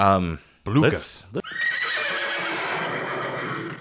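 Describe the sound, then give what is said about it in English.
A horse neigh sound effect, a brief, shrill whinny with a quavering, wavering pitch, with a voice heard around it. “You should put in every horse, single time someone says blue. Yeah, you put a horse. You put a horse neigh in there.”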